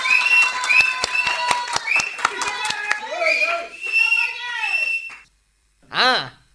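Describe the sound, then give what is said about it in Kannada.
A crowd at a village gathering claps in a quick, even rhythm. Shrill whistles and lively voices mix in, and the noise breaks off briefly before a final burst of sound. “ಎಲ್ಲ ಚಪ್ಪಳೆ ಹೊಡಿರ್ಲ, ಹೊಡಿರಿ ಹೊಡಿರಿ.”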